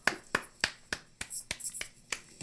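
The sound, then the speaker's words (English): Slow, sparse hand claps offered as a mock round of applause, a series of sharp, evenly spaced single smacks, fairly quiet, with no voices between them. “why don't we just pause and give you a round of applause”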